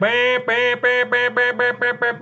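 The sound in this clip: Duck call blown through a tuned reed: a loud run of nasal, buzzy quacks, the first long and drawn out and the rest growing shorter and quicker in a steady cadence, with no talk over them.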